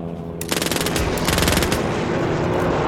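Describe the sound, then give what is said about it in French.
A machine gun fires a rapid, loud burst of shots lasting over a second. A dense rushing noise carries on after the firing stops. “Mitrailleuse armée.”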